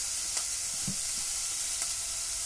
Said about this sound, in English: I like to use a wooden spoon for this, so I'm just gonna toss my onion around until it gets all nice and translucent.